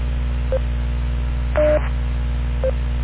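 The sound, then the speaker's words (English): Echolink tones on an amateur radio net: three short, evenly spaced beeps, the middle one longer and dual-toned, sounding over a steady low mains hum. “Let me take standby since I heard Echolink go off.”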